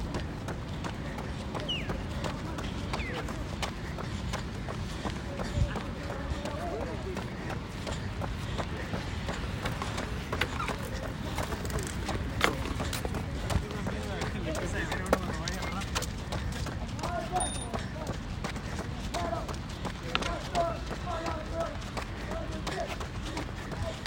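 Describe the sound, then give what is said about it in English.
Footsteps climb a set of steps, a steady run of many footfalls with crisp, repeated thuds over a constant layer of background noise. “Going up the steps right now. Oh, I think I might walk.”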